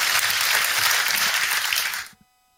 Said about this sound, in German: Okay, ihr wollt Applaus nach den Einzelnen, ne?